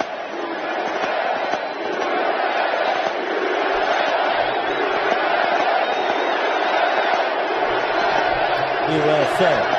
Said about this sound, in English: joined by the President of the United States and the First Lady. And then the chanting began.